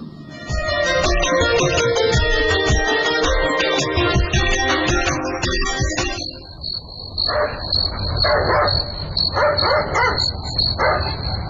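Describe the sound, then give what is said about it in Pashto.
A dog barks at night, with several sharp barks in the second half over a steady, high cricket chirring. A dense, busy passage fills the opening before the barking starts. “نه پوهېږم چې دا سپی ولې غاپي”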